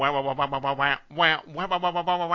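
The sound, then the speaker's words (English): A voice imitates a quacking synth theme tune, singing a quick, bouncy run of nasal 'wah' syllables with a brief pause midway before the pattern picks up again. “it had the shortest, most cursory theme tune ever, which is a quacking synth went wah wah wah wah wah wah wah”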